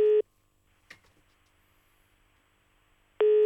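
A telephone line tone on an outgoing call: a steady, clear beep at the very start and another at the end, with a long near-silent gap between them broken only by a faint click.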